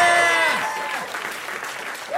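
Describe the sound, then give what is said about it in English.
Audience applause welcoming a guest, a dense, steady wash of clapping that stays loud for about two seconds, with a voice heard briefly over the start. “Please put your hands together for our best friend, Becky Lucas!”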